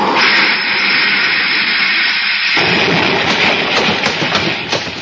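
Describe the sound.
Sound effect of an enemy rocket ship's shot hitting a spaceship, a loud, sustained, rushing roar that shifts texture about halfway through, with no voices.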